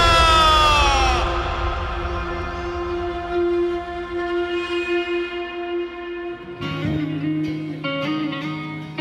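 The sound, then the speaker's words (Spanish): Train horn sounding at the Chattanooga railway station: a loud sustained chord that fades over the first seconds and gives way to steady lower tones, then a second sustained horn blast comes in partway through. “Lunes 22 de junio, estamos en Chattanooga. Tiene una estación de tren muy característica.”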